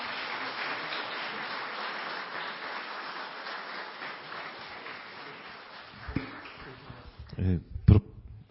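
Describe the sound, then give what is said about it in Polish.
Warm applause for a guest at the end of a talk: a dense, steady patter of clapping for about six seconds that gradually thins out, followed by a voice speaking. “Bardzo, bardzo dziękujemy jeszcze raz. Gorące brawa dla naszego gościa.”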